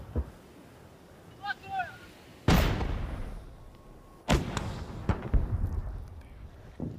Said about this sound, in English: We're advancing on Kherson. The orcs are firing everything they've got.